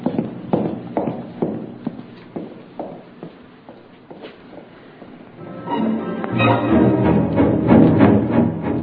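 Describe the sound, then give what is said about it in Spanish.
Footsteps walk along a city street at night as a radio drama effect, a steady series of crisp, separate steps that give way to a louder, denser wash of sound in the second half. “Porfirio Cadena abandonó aquella casa de la calle Rayón y siguió caminando hacia el norte de la ciudad.”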